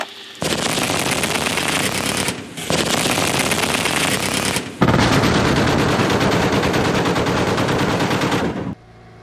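Live gunfire during an air-defence exercise crackles in three long, sustained bursts of rapid, dense shots, each loud. The third burst runs longest and is separated from the others by brief gaps.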